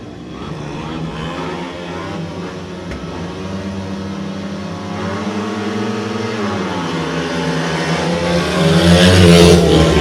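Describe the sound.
Racing motorcycle engines roar without pause, their buzzing drone dipping briefly in pitch and then climbing again, growing louder toward the end.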